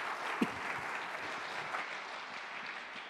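A church audience at an Easter service applauding to welcome a reverend, a continuous, fairly soft patter of many hands clapping that holds steady throughout, with no speech heard.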